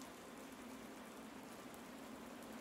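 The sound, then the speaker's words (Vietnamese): Steady drizzling rain falls at a sacred mountain-forest site at the end of the day, a faint, continuous, even hiss with no distinct drops standing out. “Đã sang cuối ngày, lại thêm cơn mưa rả rích không ngớt, sự âm u càng lúc càng bủa vây lấy chốn linh thiêng.”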